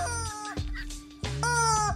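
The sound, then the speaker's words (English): A rubber chicken squeezed to squeak out a rock song parody gives loud, shrill, squawking notes: a short note, a brief break, then a long sustained note. No voices are heard. “all you see is his arms holding and his hands holding a rubber chicken, and he squeezes the rubber chicken”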